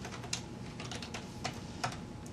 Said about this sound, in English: So I'll write just a simple loop to go and look at the results of this.